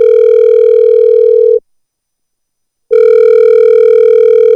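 A telephone ringing tone, steady and buzzy with strong overtones, sounds for about one and a half seconds, falls silent for over a second, then starts again, loud and alone with no voices.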